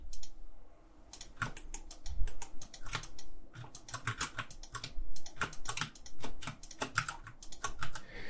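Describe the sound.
Computer keyboard key presses while keyframing an animation in software, with many quick, irregular clicks in bursts and short pauses, loud and without talk.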